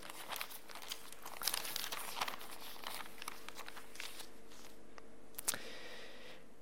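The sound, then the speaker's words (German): Thin pages of a Bible rustling and crinkling as it is opened and leafed through, a soft, steady papery shuffle with a sharper crackle near the end. “Lasst uns aufschlagen, Matthäus 4, Kapitel 4.”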